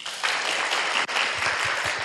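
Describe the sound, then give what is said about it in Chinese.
Audience applause at a Buddhist temple gathering, thanking a generous sponsor: dense, even clapping that fills the whole stretch, with one brief dip near the middle. “对咱听谢会了，哦，再次掌声。”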